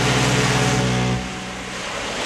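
Sea waves wash in a broad, steady rush over a low constant hum, then ease slightly after about a second.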